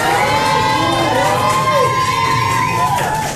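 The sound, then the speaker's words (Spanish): Cheering squads at a quiz show shout and cheer together in a sustained, high-pitched roar of many voices that stays loud and continuous throughout. “a ver, que se escuchen las porras, por favor, vamos a ver.”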